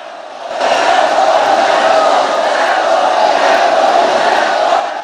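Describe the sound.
A crowd gathered around a local fight roars with cheering and shouting, swelling up after a quieter opening moment and then holding a loud, continuous wall of voices to the end.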